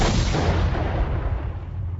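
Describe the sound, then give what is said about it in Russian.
An explosion from a tripwire at the bottom of a stairway comes through as a loud, dense, heavy rumbling roar that fills the whole two seconds and thins slightly toward the end, with no voices. “Минут через 10 прозвучал второй взрыв. Сработала растяжка внизу лестницы.”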